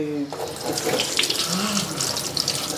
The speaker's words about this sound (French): On met l'oignon à l'eau froide.